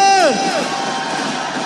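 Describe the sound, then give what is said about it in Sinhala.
A large crowd of people produces a broad, continuous murmur and hubbub of many voices. It follows a single voice heard briefly at the very start, then stays steady to the end. “පුදුම සෙනගක් මෙච්චර සෙනග කොහෙද හිටියේ?”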